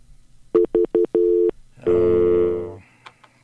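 Telephone tones on a broken phone line: a few short electronic beeps, then a longer steady tone, followed by a harsher buzzing tone that fades out, with a couple of faint clicks after.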